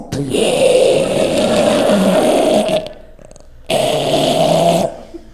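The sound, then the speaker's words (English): A man imitates the breathing of another man falling asleep with two long, rasping, growly snores separated by a short pause. “So he would fall asleep. And people knew he was asleep because his breathing changed. So normally he breathed like this. And then when he would fall asleep, it turned into this.”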